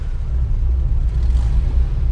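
A car engine gives a low, steady rumble while a child on a parent's lap pretends to drive and is told to accelerate. The deep drone pulses slightly, with no clear rise in pitch.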